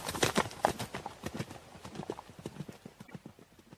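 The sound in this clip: Horses gallop with many rapid, rhythmic hoof strikes in a steady clip-clop, loudest at the start and easing slightly as it continues.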